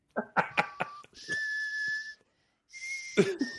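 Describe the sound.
Whistling in a western-style film scene: two long, level, high whistled notes separated by a brief pause, with a few clipped, rough sounds just before the first.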